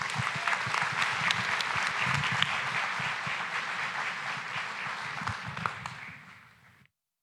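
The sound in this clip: Audience applause welcomes a guest speaker at a morning talk on the Book of Revelation: steady, dense clapping from many hands that holds level for about six seconds, then fades out.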